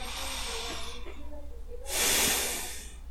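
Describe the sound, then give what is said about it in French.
A deep breath drawn in during mindfulness meditation: a loud, airy inhale swells for under a second after a stretch of softer breath noise, with no talking. “Donc on inspire.”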